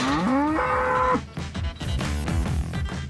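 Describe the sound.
A bull mooing, a long, loud bellow that rises in pitch and then holds steady, followed by further deep, rough lowing.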